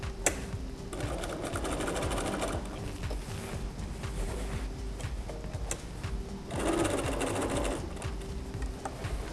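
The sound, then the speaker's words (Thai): A sewing machine backstitches along the top edge of an apron pocket, a steady rapid whirring with slightly louder stretches and no talk. “พอมาถึงตรงปลายของด้านบนปากกระเป๋าแล้วนะคะเราก็ย้อนค่ะย้อนอีกสักหนึ่งครั้งนะคะ”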